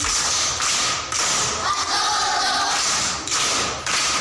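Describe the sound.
Classmates clapping for a pupil who answered correctly in a lesson, a loud, dense burst of applause broken by a few brief pauses.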